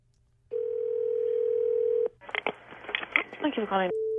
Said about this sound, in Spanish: voy a marcarle